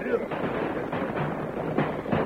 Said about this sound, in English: As they charged down upon the narrow cut, they were met with a volley of shots.